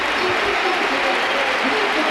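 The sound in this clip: A stadium crowd applauds as Lamine Yamal leaves the pitch at the Ramón Sánchez Pizjuán during a football match. The clapping forms a dense, steady roar throughout, and a commentator speaks over it.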